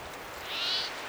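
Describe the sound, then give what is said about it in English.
A second bird crying: one brief, faint, high-pitched call that swells and fades over low background hiss. “Might be a second bird crying.”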